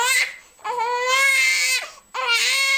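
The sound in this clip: A young infant in its first months of life cries in three loud, high-pitched wailing bursts separated by brief pauses for breath, with no other sound.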